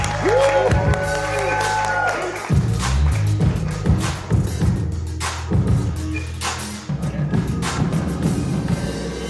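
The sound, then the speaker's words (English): An audience claps and cheers for the host at a live show at the House of Culture in Salt Lake City during All-Star Weekend 2023, a loud, steady wash of applause with scattered shouts and whoops. “Let's give it up for Des.”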